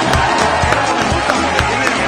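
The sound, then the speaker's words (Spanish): Audience applause at a live comedy show as a guest is welcomed on stage: loud, dense clapping blended with crowd noise and some cheering, holding a steady level throughout. “Un aplauso y dale para allá.”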